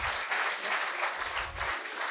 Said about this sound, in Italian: Quindi già facciamo un applauso a Peppe